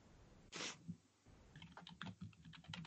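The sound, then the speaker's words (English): Quiet typing on a computer keyboard while playing Outer Wilds. One brief louder burst comes first, then many soft, irregular key clicks. “Don't type in Outer Wilds like I just did.”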